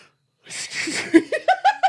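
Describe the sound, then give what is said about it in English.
A snort bursts out amid laughter, followed by a few short, voiced giggling pulses at a steady pitch, all fairly loud. “Biggest snort. I'm sorry.”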